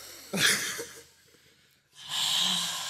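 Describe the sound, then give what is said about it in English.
A group taking slow deep breaths, with two broad breathy swells of inhaling and exhaling separated by a short quiet gap, the first sharper at its onset and the second steady and sustained. “Close them. Deep breaths. I want two deep inhales and exhales from everybody right now.”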